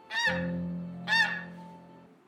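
Geese honking: two loud, nasal honks, each with a brief bright attack and a sustained buzzy tone that fades. The second honk comes about a second after the first.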